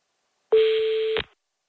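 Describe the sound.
A single steady electronic telephone tone sounds as a call is dialled, one clear mid-pitched beep held for under a second, alone against silence.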